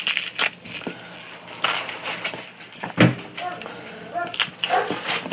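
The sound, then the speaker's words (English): Crinkling and crackling plastic as a bag of flour tortillas is opened, coming in irregular sharp bursts throughout, some loud and abrupt, others softer rustles between them. “I'm opening a bag of flour tortillas.”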